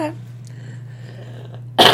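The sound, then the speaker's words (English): A single short cough bursts out loudly near the end after a quiet stretch with a low steady hum. “I'm so sorry I had to cough.”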